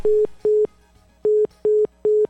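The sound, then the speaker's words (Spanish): Disconnected telephone line tone after a call drops: five steady, mid-pitched beeps, each about a fifth of a second long, with a longer pause after the second beep, heard alone. “manipuló mal el teléfono y se cortó”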